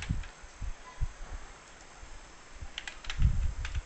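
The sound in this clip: Typing on a computer keyboard: bursts of quick, light key clicks, with a quieter pause in the middle before a denser run of clattering taps.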